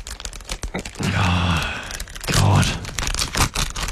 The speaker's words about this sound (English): You can open up that envelope and we all find out together.